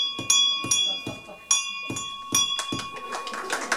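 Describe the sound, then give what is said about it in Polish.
A gratitude bell in a university hospital's neonatal ward in Wrocław, rung by parents leaving with their children, strikes repeatedly with bright, ringing tones. Each sharp hit decays briefly before the next, and the strikes come more densely toward the end. “Dzwon wdzięczności zabrzmiał po raz pierwszy w Uniwersyteckim Szpitalu Klinicznym we Wrocławiu. Zawisł w klinice neonatologii.”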